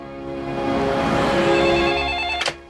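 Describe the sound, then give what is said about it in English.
A telephone ringing in a hospital emergency room, a sustained electronic ring that swells and holds, then cuts off with a short, sharp click. “At the hospital, Christy picks up the phone.”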